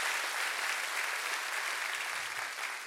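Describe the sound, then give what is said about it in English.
A church audience applauds, a steady, dense wash of clapping hands that holds at an even loudness for the whole stretch without any break. “Come on, church, one more time. Would you put your hands together?”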